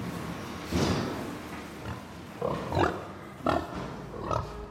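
Pigs grunt in a series of short, rough grunts and snorts at uneven intervals, with no talk.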